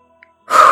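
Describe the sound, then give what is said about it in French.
A single forceful exhale, blown out hard in one go during a breathing and relaxation exercise; a short, loud, breathy rush of air following a moment of near silence. “vous prenez une grande inspiration, puis vous soufflez fort d'un seul coup, comme ceci”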